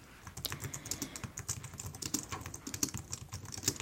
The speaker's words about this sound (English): Let me go ahead and type that in.